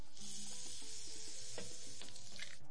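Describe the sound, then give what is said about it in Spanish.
Fried plantain baskets sizzle during their second frying in oil, giving a steady, soft hiss with small crackles running throughout. “Vuelve a freír las canastitas”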